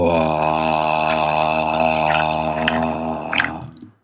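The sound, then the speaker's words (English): A sustained vocal tone made on a slow out-breath during a breathing exercise, one steady low hum rich in harmonics that holds level before fading out at the end. “Breathe in. And tone as you breathe out.”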